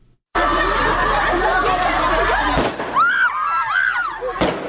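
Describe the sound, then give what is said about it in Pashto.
Women protesters shouting and Taliban forces firing guns in a Kabul city street: dense crowd noise and high-pitched shouting voices, punctuated by a couple of sharp bangs. “دا د اعتراض کوونکو مرمنو شور او د طالب ځواکونو د ډزو غږونه دي چې نن یو بیا د کابل د شارینو له کوڅو واورېدل شول.”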